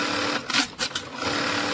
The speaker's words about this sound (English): This is the sound of a bra in the making.